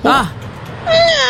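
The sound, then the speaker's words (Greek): A human voice imitates a cat meowing in two short mews, the second longer and more drawn out. “Εγώ νομίζω κάνω πάρα πολύ καλά τη γάτα. Για πήγαινε να την κάνει.”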